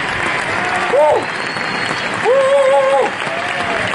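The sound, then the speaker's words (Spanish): Applause from a crowd, dense continuous clapping at a steady loud level, with voices calling out over it in two short bursts. “¡Hala! ya tienes tu ración de aplausos.”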